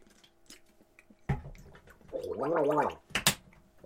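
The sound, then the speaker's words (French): Someone gargles water in their mouth after eating dark chocolate, making a wet, bubbling rattle that lasts about a second. A few sharp mouth clicks and splashes come before and after it, with no speech. “je vais me gargariser la bouche”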